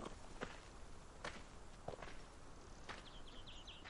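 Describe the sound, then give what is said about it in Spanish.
An elderly, bearded man of about seventy walks alone through a large olive grove. A few soft, scattered footsteps sound over a steady background hiss, and faint bird chirps come near the end. “El abuelo recoge una pequeña piedra, la observa y camina en solitario por un gran olivar.”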